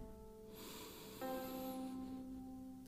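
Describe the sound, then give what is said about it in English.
A slow, deep inhale is taken during guided meditation. It is a soft, airy rush lasting over a second and sits under quiet, sustained ambient tones. “Okay, we're going to go ahead and get started with a deep breath in.”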